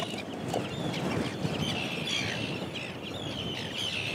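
An Arctic tern chick chirps while being weighed, giving repeated thin, high chirps over a steady, dense background hiss.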